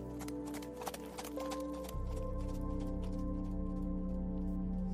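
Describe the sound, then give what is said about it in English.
Galloping horse hoofbeats make a steady, rhythmic clopping over a sustained tonal music bed, moderately loud throughout. “You dream of mounted figures galloping across the sky and wake to the sound of hoofbeats. Time to ride.”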